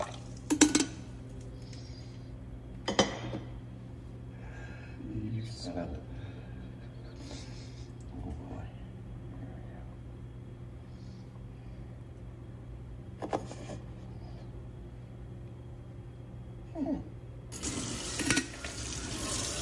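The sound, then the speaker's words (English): Dishes clink and clatter while a coffee pot is washed under running water. A low steady hum runs throughout, and a louder rush of water near the end. “And that coffee pot should really be clean by now, you would think.”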